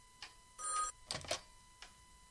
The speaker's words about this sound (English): A ring again. That way I'll have time to get to the phone.